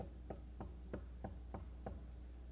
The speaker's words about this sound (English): Then about that time, he knocks.